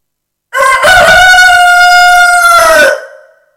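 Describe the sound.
A rooster crows once, a loud, drawn-out, strongly tonal call that holds steady for more than two seconds before tapering off, heard alone.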